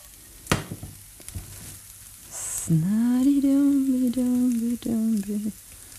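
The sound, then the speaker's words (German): Tofu being tossed and fried in oil in a pan gives a low, steady sizzle, with a sharp clack near the start and a sustained humming tone over the later half. “Okay, schwenken den Tofu. Es ist eigentlich noch immer gut Öl da.”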